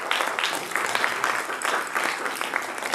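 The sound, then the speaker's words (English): A church audience applauds to welcome a pastor: continuous, many-handed clapping that holds at an even, moderately loud level for the whole stretch, with no voices standing out. “could we welcome Pastor Dean Wallace as he comes? Give him a hand and welcome him today.”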